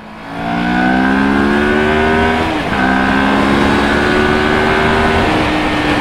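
Moto Morini STR650 motorcycle engine revving hard on a fast road, its loud note climbing steadily in pitch and dropping twice at gear changes before climbing again. No one speaks.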